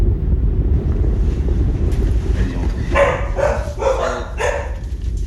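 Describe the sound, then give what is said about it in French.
Wind buffets the microphone over a rough sea around a whelk and crab fishing boat under a low grey sky, a constant low roar with a few brighter splashing surges midway. “Ciel gris, plafond bas, mer agitée.”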